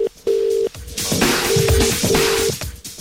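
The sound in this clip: A telephone call is dialled and rings out: a steady mid-pitched tone, a stretch of noisy clicks, then a UK-style double ring tone made of two short tone bursts close together.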